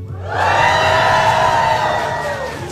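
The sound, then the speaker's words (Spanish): A crowd of students from the Escuela Superior de Tlahuelilpan cheers and shouts in a loud, sustained roar of many voices that swells in quickly, stays steady, and eases slightly near the end. “Y a continuación lo van a escuchar porque le damos la bienvenida a la Escuela Superior de Tlahuelilpan. ¡Que se escuche fuerte!”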